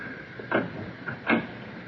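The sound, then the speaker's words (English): A door being closed in a radio drama scene, two soft clunks about three-quarters of a second apart, faint over a quiet hiss. “Now, come inside. Close the door behind you.”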